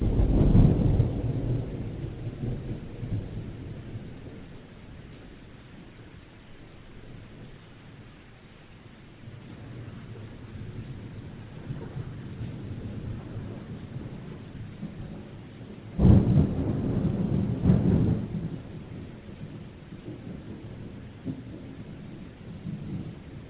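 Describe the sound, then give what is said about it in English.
A heavy rainstorm with thunder: steady rain hisses while low thunder rumbles, swelling into a louder burst partway through. “flooding and heavy rain. And it would sound like this.”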